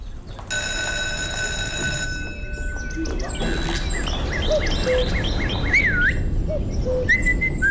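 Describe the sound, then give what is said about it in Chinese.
A schoolboy whistles a tune in a classroom during a music lesson, a run of short, chirpy high notes and quick pitch slides that quickens near the end, over a steady low background noise. “不许吹口哨，破坏纪律。”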